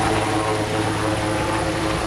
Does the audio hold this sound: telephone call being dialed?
no